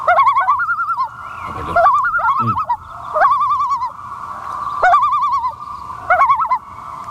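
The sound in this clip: A bird's tremolo call, a rapid series of alarm notes, comes as wavering, quavering high notes in five bursts over a low, rumbling background.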